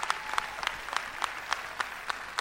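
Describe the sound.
Crowd applause for a music band at a carnival event: sharp claps in unison on a regular beat, about three per second, over a softer bed of scattered clapping.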